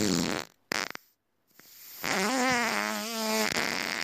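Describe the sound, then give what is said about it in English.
A fart from someone at dinner: a brief sputter, then a long, loud, buzzing blast with a steady low tone that keeps going for over a second. “what is that? Just gas coming out the person. They just start farting for some reason.”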